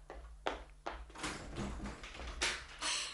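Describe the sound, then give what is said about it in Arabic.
A door being opened in an Egyptian Arabic radio drama, heard as a few soft clunks and taps spread across a few seconds over a low steady hum. “افتح الباب.”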